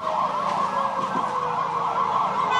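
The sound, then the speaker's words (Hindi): A police siren wails in a long traffic jam, a loud continuous electronic tone warbling rapidly up and down at a steady rate over a low background rumble. “Police का siren आपको सुनाई दे रहा होगा, police का siren”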